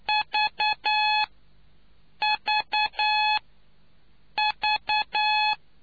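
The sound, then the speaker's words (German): Morse code signals sound as a clear, steady-pitched tone keyed three times in the same group of three short beeps and one long beep, with even pauses between the groups and no voices. “Damit können Sie sich auf Lautstärke, Tonhöhe und Tempo der Morsezeichen einstellen.”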